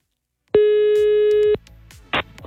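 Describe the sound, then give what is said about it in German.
A single ringback tone plays on an outgoing phone call to a prize winner: one steady, even-pitched tone lasting about a second, then a gap with faint low sounds and a short burst of noise. “Ich darf jetzt die letzte Gewinnerin unserer Aktion anrufen”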